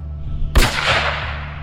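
A single gunshot finishes off a wounded patrolman: one sharp, loud crack followed by a long, slowly fading rumbling tail, with no voices.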